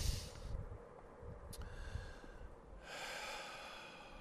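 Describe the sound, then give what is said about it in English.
A man draws a breath, with a few breathy, snort-like intakes of air and soft rustling, louder at the start and again near the end, and no speech. “Take a breath, okay?”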